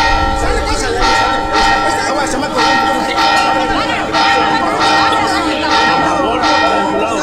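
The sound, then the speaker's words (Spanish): A church bell rings out loudly to call people together, its strokes overlapping into a continuous, resonant clanging that carries steadily through the whole stretch. “¿Por qué están llamando con la campana?”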